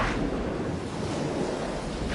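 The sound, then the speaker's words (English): Ice-cold water gushing from a pipe in a ceiling and splashing across a metal floor, heard as a steady, dense rushing spray that continues without a break. “It came spraying down from a pipe in the ceiling, an ice-cold gush of stinking gray liquid that drenched him instantly as it clattered across the metal floor”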